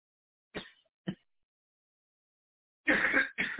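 Coughing and throat clearing break a quiet silence: two brief faint coughs, a long pause, then two louder, longer, harsher bursts close together.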